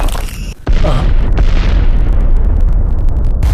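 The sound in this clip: A bomb explosion bursts in as a sudden loud blast, then rolls on as a dense, sustained roaring rumble to the end.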